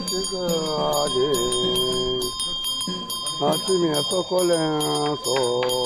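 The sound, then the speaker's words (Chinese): A Yi ritual priest shakes a hand bell to bless guests at a village gate. Bright, rhythmic jingles repeat steadily beneath loud, wavering chanting. “刚到村口，毕摩摇着铃铛为宾客祈福。”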